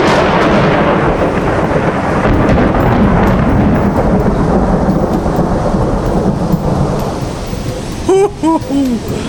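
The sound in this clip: Thunder from a close lightning strike into the Maas roars as a loud, continuous rumble over heavy rain hiss. The rumble eases lower toward the end.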